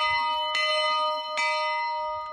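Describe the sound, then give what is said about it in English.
A bell salvaged from a 1900 schoolhouse rings out with two distinct strikes, its bright metallic overtones sustaining as a steady hum between and after the blows. “When boys' camp imported this bell from a 1900 schoolhouse, it was a big deal.”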